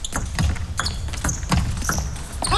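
A table tennis ball bouncing during a serve in a match: a handful of sharp, light ticks spaced unevenly over steady background noise.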